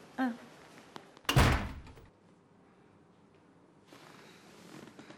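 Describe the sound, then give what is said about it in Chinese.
A door is shut with a single loud, heavy slam-like thud, followed by quiet. “把门关上。”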